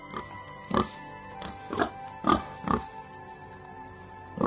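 Pigs grunt and oink while they are being given feed. Several short, low, throaty grunts come at uneven intervals over a steady background hum, with no voices.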